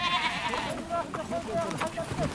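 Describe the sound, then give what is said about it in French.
Bleating from a noisy herd of nearly 300 sheep, ibex and goats as Kyrgyz men, women and children sort the animals: many overlapping cries rise and fall continuously, with people's voices mixed in. “hommes, femmes et enfants kirghizes trient les bêtes, moutons, bouquetins, chèvres, près de 300 têtes bruyantes.”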